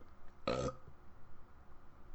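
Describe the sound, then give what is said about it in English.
A short fart, a single buzzy, tonal burst lasting about a quarter second, faint and alone against a quiet background. “Oh, I farted.”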